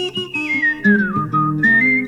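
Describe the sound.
A person whistles a lively tune alone. The clear, bright melody moves up and down across quick notes and a few held tones, steady and fairly loud throughout.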